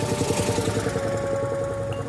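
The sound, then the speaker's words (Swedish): A woman's own car drives off on a cold December day, its engine holding a steady, even low hum with a faint tonal whine and no clear rise in pitch. “Och sen sätter hon sig i sin bil, som hon ju har en egen bil, och kör iväg.”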